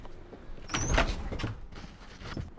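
A locked church door is tried: a few muffled rattles and clunks with a short scraping creak, all fairly quiet.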